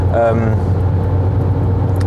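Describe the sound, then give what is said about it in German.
A car drives on the A46 motorway near Erkrath in heavy traffic, with a steady low engine and tyre rumble throughout. “Also wir fahren ja von Geresheim über Erkrath auf die A46, um zum IKEA fahren zu dürfen.”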